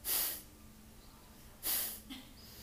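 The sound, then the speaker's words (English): Two short, airy breaths form part of a slow, passive-inhale breathing demonstration. Each is a soft hiss lasting under half a second, separated by a quiet pause, followed by a fainter brief puff. “the inhale is not like panting. It's a it's a passive inhale”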